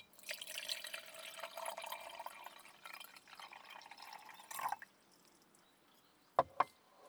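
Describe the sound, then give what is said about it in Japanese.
Hot water pours into a container in a steady splashing trickle that fades after a few seconds, followed by two sharp clinks; quiet overall. “こちらに移して、お湯を注ぎます。”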